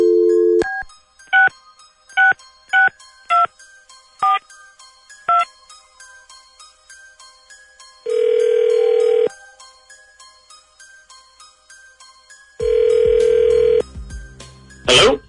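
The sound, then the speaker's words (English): Telephone dialing on a phone keyed at random: a quick run of short beeping keypad tones, then two long buzzing ring tones separated by a pause, with no talk. “Dialing at random.”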